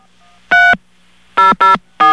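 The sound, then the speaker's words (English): Touch-tone keypad beeps as a phone number is punched into an automated voicemail menu: four short, bright dual-pitch tones, one alone, then a quick pair, then a last one cut off at the end, with no voices. “Just to be a wise guy, I'm going to enter their phone number as the 7-digit number.”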